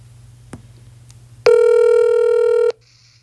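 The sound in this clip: A telephone ringing tone sounds while a call is being placed: one loud, steady electronic tone that lasts just over a second, then cuts off into near silence.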